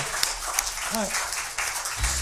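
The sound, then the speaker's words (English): A church audience applauds to thank the organist, a steady wash of scattered hand claps at a fairly low level. “say a big thank you to her with an applause if you do that”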